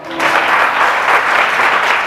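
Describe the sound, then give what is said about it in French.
A church audience bursts into applause, beginning abruptly after a brief moment and then holding as loud, dense, even clapping. “Si tu me suis, acclame le Seigneur.”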